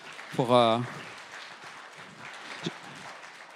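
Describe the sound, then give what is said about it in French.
Faint audience applause follows a reading: a soft, steady patter of many hands that continues throughout, with a brief voice sounding near the start. “Et merci beaucoup, on peut les applaudir et les remercier.”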